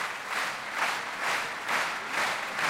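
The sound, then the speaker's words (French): Audience applause at the La Roque d'Anthéron piano festival calls two pianists back for an encore: dense, steady clapping that swells in regular waves about once a second. “Vous l'entendez, Ludmila Bernskaya et Arthur Ancel sont rappelés par le public de la Roque d'Antero. Ils reviennent sur scène.”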